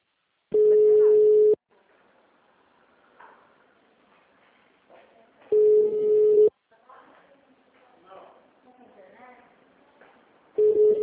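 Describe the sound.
Three loud, even beeps of a telephone ringing tone mark an outgoing call, each lasting about a second and spaced roughly five seconds apart. Quiet voices talk in the gaps between them.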